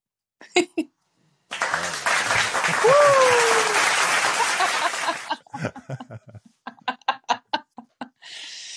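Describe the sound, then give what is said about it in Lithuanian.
Canned applause sound effect triggered by a button in a live audio chat room: a dense, loud burst of clapping lasting about four seconds with a brief whistle over it, followed by a voice talking. “Jeigu būtų aplodismentų, čia mygtukas dabar paspaudžiu. Audio effects.”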